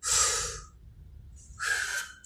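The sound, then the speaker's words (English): Someone takes a deep breath: two long, airy breath sounds separated by a short pause, soft and heard alone without speech. “Take a deep breath.”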